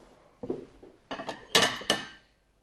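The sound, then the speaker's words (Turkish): Bowls and spoons clink as soup is served, with several sharp ceramic and metal knocks in an irregular sequence that grow louder toward the middle before fading. No one speaks. “Ben hemen sana servis yapayım arkadaşım. Şöyle. Hemen ikimiz de şeffaf şekilde yorumlayacağız. Ben hemen çorbayı ben kenara alayım.”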